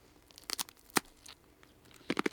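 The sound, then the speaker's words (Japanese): Crunching bites of a cheese-flavored snack: a few sharp, dry crackling bursts, one standing out loudest, then a quick cluster of crunches near the end, with no talking. “でもなんかこれ今用意していただいたのチーズ味ですけど、ザンギ味とかありますよね、唐揚げ、北海道でいう唐揚げですけど。いただきます。”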